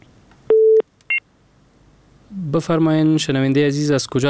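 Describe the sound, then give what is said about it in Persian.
Telephone tones as a call disconnects: one held low beep, then a short higher beep, followed after a pause by a person talking. “له دوی سره مو فکر کوم اړیکه پرې شوې ده”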